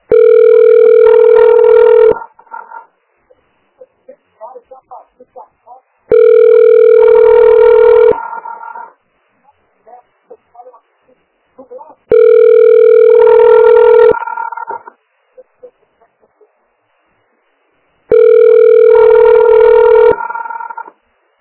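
A telephone ringback tone plays while the caller waits for a health clinic's line to be answered: four loud, buzzy rings of about two seconds each, evenly spaced by gaps holding only faint scattered sounds.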